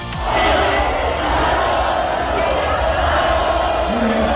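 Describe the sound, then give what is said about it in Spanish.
A stadium crowd at a Formula 1 circuit chants for Fernando Alonso, urging him to stay one more year. Many voices merge into a loud, steady, roaring wash that holds throughout. “esta es la imagen que se producía hace unos instantes con todo el público que había ido a ver la jornada de hoy, diciéndole a Fernando Alonso que siga un año más en la Fórmula 1.”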